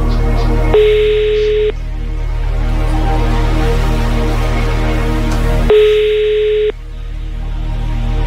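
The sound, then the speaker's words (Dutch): An outgoing telephone call rings to a quiz contestant, with two steady one-second ringing tones separated by a long pause over a continuous low background bed. “We gaan nu iemand uit de app live opbellen.”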